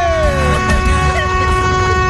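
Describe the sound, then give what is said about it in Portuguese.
A vehicle horn blares without a break, a loud, steady, harmonically rich tone held through the whole stretch over a low rumble of engines or traffic. “essa buzina aí é já é bem conhecida”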